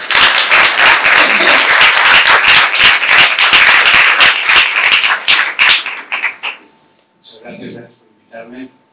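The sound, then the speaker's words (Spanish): Audience applause at a commemoration event for the National Day of Memory in Madrid: loud, dense, steady clapping that thins out and fades after about six seconds, followed by a voice starting to speak. “Un aplauso.”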